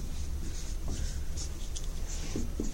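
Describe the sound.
Writing on a board makes a steady, soft scratching with a few short squeaky strokes, heard alone against a low background murmur.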